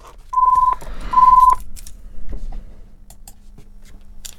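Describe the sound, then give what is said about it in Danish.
A telephone rings in two short electronic tone bursts, each about half a second long. The second burst pulses rapidly, and faint scattered noises follow. “Og der ringte telefonen.”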